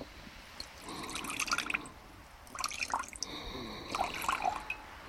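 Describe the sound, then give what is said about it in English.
Liquid poured from a bottle into a mixture in a jar, heard as a few short bursts of splashing and dripping, fairly soft, with no talking. “Now, I add 3 measures of liquid from this bottle.”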